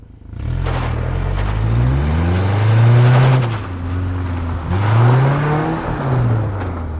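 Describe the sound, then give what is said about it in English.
Old pickup truck engine revving hard with a clutch-assisted launch as its wheels spin on gravel. The engine pitch climbs, drops, then climbs again over a continuous gritty roar. “An old pickup here. We'll try that again with a clutch assist to help us get more force to the wheel more quickly. So here we go. And once again, listen for the gravel.”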